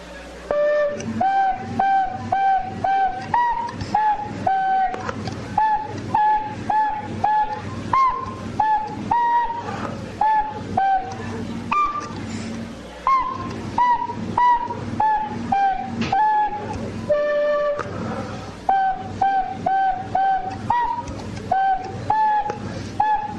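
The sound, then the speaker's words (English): Tin whistle playing a lively tune of quick, bright notes over a steady, driving beat throughout. “All right, let's play a wee little tin whistle here for you.”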